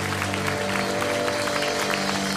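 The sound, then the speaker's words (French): Church audience applauding in acclamation during worship: steady, even clapping from many hands over held musical tones, continuous and unbroken for a couple of seconds. “À toi toute la gloire et c'est une bonne raison d'acclamer Jésus de sa toute-puissance ce matin.”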